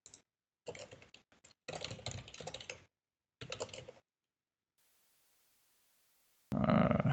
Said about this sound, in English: No, like, so let me quickly try to type an example out.